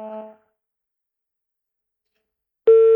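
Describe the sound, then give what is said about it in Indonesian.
A telephone tone sounds after a call drops: one steady, loud mid-pitched beep near the end, preceded by a brief faint tonal sound and a long silence. “Oke, sayang sekali ya, terputus, dan kakak Ferdi bisa coba lagi.”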